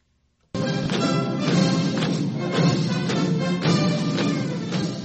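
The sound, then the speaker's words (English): Soldiers marching in lockstep at China's military parade marking the 70th anniversary of Communist Party rule: after a moment of silence, heavy synchronized footfalls strike in a steady, driving rhythm, loud and forceful throughout. “That's the sound of soldiers marching in a spectacular lockstep as China showed off its military might in an elaborate parade marking the country's 70th anniversary under Communist Party rule on Tuesday.”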